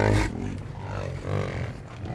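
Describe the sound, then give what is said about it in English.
Bison calves mew for their mothers in a roundup pen, giving low, drawn-out bawling calls that overlap into a steady murmur after a louder cry at the start. “sequestered in their own roundup pen, bison calves mew for their moms.”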